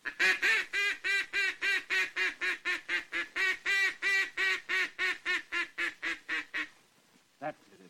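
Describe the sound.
A duck call blows a feeding chuckle and come-back call: more than two dozen evenly spaced, nasal quacks in a steady run. A pause follows, then one short, lower note.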